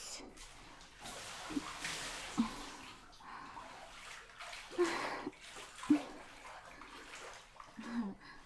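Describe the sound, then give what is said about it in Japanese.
Water sloshes and spills over the rim of a filled hot bath as two people climb in, with a few soft splashes and knocks rising from a steady watery wash. “やっぱり二人で入るとお湯が結構溢れちゃうね。”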